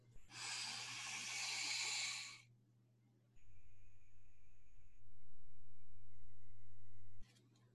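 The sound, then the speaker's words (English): One long, steady breath through the nose during a guided breathing meditation, a loud, airy hiss of about two seconds over a low sustained tonal drone that continues alone after the breath ends. “Exhale through the mouth. Hold the emptiness. Inhale through the nose.”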